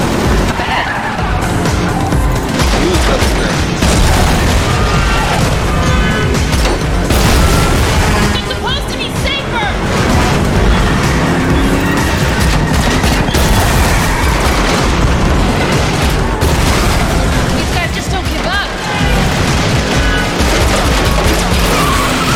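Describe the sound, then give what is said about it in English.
Pistol gunshots from a .50 Desert Eagle in a video game burst out amid loud, continuous game noise of cars, tire skids and booming impacts, with sharp repeated cracks throughout and a voice briefly heard. “She's shooting a 50. She just fired seven shots and it was empty. Seven shots and then reload. Okay, so it's a 50. Yeah. 50 Deagle.”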